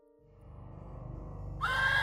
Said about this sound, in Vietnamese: khiến cho mấy con ngựa lồng lên hí loạn, hất văng người xuống dưới đất mà tháo chạy đi.